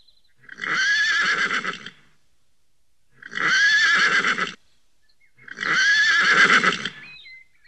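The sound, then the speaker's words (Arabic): A horse neighs three times, each whinny a loud shrill burst of about a second and a half with a quavering pitch, separated by short silent pauses, with no talk. “حسنا، اهدأ يا حصان الجميل وخذ قطعة من السكر.”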